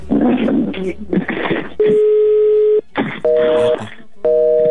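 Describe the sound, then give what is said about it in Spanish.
Ringback tone of an unanswered telephone call: a few steady, even-pitched electronic tones separated by gaps, with people talking over and between them. “No nos contesta. A lo mejor ya se durmió, Flor. A lo mejor, y si no es que ha de tener el teléfono fija. No nos contesta, mira.”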